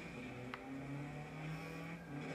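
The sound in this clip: A car engine drones as it is driven straight across open prairie in a video game, a low, steady and faint motor hum with no one talking over it.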